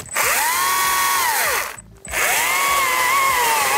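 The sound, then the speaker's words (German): A power saw cutting pieces from a tree trunk: a loud, continuous motor whine that wavers and sags in pitch, stops briefly near the middle, then resumes. “Und schon sind einige Stücke aus dem Stamm gesägt.”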